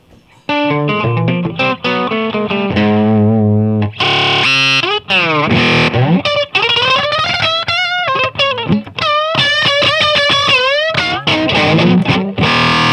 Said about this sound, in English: Maybe something like that, you know, like that's what the solo would be. That might, so that literally might be a guitar.